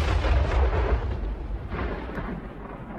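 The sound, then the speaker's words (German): A deep, heavy rumble from explosive rock blasting on a privately funded mountain memorial in South Dakota's Black Hills. The roar stays loud and fairly steady for the whole span, then fades slightly toward the end. “Ein Monument, das in Fels gesprengt wird.”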